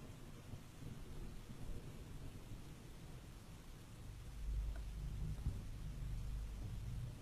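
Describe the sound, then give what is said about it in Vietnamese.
Steady rain hisses throughout while thunder rolls in as a deep, low rumble that swells during the second half and stays heavy to the end; no talking. “bữa nay tụi mình quyết định để tiếng mưa làm cho nó mới mới nghe. Có cả tiếng sấm nữa các bạn.”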